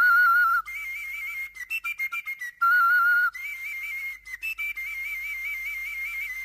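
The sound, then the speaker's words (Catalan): A whistle with finger holes covered and uncovered while blown, producing bright, piercing tones that step between a few pitches, alternating long held notes with quick, choppy bursts of short notes. “I si afegís forats i els tapés i els destapés? Uns oberts i altres tancats, tot plegat mentre bufés.”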